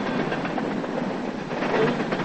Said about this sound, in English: then watches the silver freight car speed past